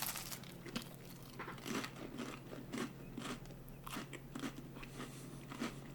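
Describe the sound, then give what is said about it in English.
Biting into a whole grain cracker topped with white cheddar mixed with horseradish gives faint, crisp crunches that repeat in many short bursts, alone without talk. “I think it's just white cheddar mixed with horseradish. I'm putting it on this whole grain cracker, and I'm going to take a bite.”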